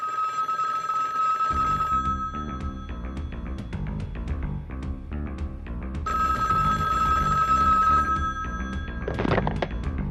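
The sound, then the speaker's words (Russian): A telephone bell rings in two long, bright, buzzing bursts a few seconds apart, with busy percussive sounds continuing between and after them. “А спустя несколько дней, где-то около полудня, его разбудил звонок.”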